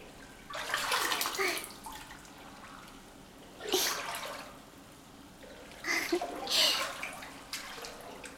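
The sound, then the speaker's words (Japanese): Hot bath water is poured over a person soaking in a bathtub: three separate splashing pours of moderate loudness, each lasting about a second, with quieter stretches between them and no talk. “ほらほら、肩まできちんと浸かりなさい。足りないならこうしてお湯をかけてあげるから。”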